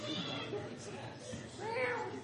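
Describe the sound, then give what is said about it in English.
A cat meows with a few drawn-out, wavering cries, the clearest near the end, mixed with a murmur of voices. “Oh, a cat?”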